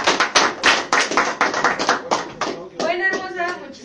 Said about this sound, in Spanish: un aplauso por favor